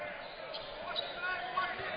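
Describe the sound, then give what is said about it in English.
A basketball dribbled during a game: faint, repeated bounces under steady background noise, never clearly separated. “DeLazio with the basketball all around the right side. Keeps his dribble alive, gives it to Wallace.”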